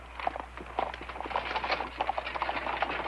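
Horses' hooves clop as the animals are driven with reins, giving a quick, uneven run of many moderate hoof strikes across the whole clip.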